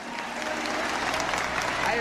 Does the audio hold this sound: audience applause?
yes